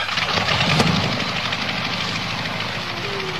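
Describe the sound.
A tank engine runs steadily: a continuous low, rumbling drone with a rough, knocking texture. It stays loud and unbroken throughout, with no talking.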